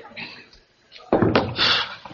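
A door closes with a single solid thud that breaks a quiet stretch, followed by a brief rattle as it settles.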